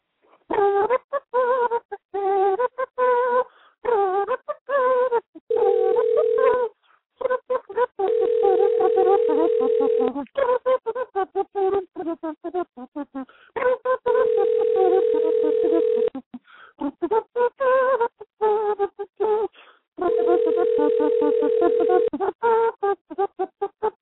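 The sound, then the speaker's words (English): Telephone dialing and ringing tones: four steady, pulsed ring signals repeat over a looping electronic tune, with short gaps between them. “Some dialing music, please.”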